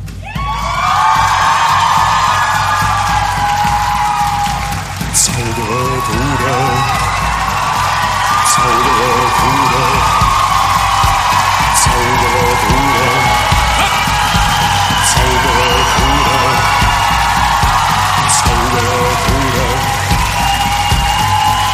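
A drum is struck in a few regular beats, roughly every three seconds, while a large group of children shout and call out in loud, rhythmic repeated chants throughout.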